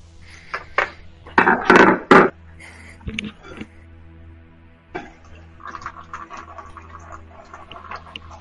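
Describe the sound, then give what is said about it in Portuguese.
Dishes being washed at a sink with running water: several loud, irregular clattering and splashing bursts early on, a few sharper knocks, then a steadier, softer wash of water noise over a low constant hum. “eu tô lavando a louça”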